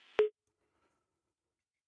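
A single short, loud beep of a telephone busy tone after a caller hangs up on a phone line, sounding once at the start and then giving way to silence.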